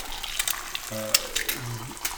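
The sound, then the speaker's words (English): An egg fries in a pan for a breakfast sandwich with bacon and collard greens, giving a soft, steady sizzle broken by scattered crackling pops. “Nothing like an egg hitting the pan.”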